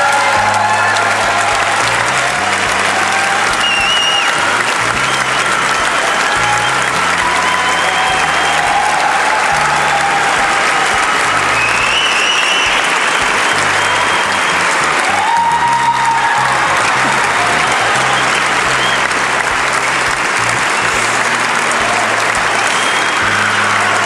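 Sustained audience applause welcoming Steve Jobs of Apple Computer: dense, steady clapping from a large crowd that holds loud and even for the whole stretch.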